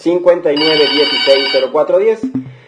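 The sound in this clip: A telephone rings with the first incoming call to a radio call-in advice show. A steady, high electronic ringing tone sounds beneath a talking voice.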